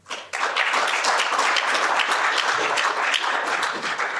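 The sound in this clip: Audience applause welcomes a guest from Tennis Australia to the stage: dense, steady clapping that starts quickly and holds at an even level, easing off slightly at the end.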